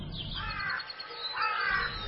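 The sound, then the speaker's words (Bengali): Crow cawing: two harsh, drawn-out caws, the second slightly louder, stand out over a low, steady background rumble. “এমন সময় প্রথম কাক ডাকল।”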